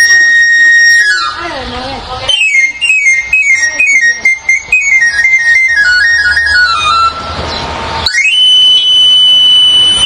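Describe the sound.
An itinerant knife and hoe sharpener's whistled call, a trade of sharpeners from Ourense carried to Uruguay. Rapid stepped notes run downward in a loud, piercing sequence, then settle into a high sustained tone at the end.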